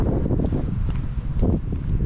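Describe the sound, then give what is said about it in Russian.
Wind buffets the microphone in an open place, a loud, continuous low rumbling roar with gusty surges and no clear pauses. “Сейчас нам будет больше ветра.”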